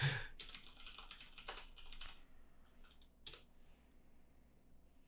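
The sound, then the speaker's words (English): Faint typing on a computer keyboard, with many quick key clicks in uneven bursts that thin out and grow sparser toward the end. “I can't type today.”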